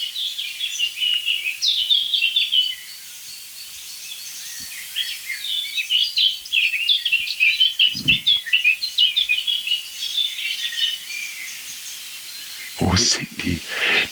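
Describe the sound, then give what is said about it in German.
Blackbird or song thrush singing: a continuous stream of varied high chirps and warbled phrases. A couple of low, dull thumps break in near the middle and end. “Passt doch nicht, aber es ist Amsel-Singdrossel only, würde ich sagen.”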